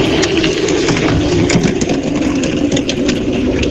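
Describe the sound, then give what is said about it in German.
A soapbox car rolls into the finish of a race and brakes hard, making a loud, continuous rumbling rattle with scattered small clicks and no clear pause. “Also pass auf, das ist das Geräusch von einer Seifenkiste, die ins Ziel einfährt und bremst.”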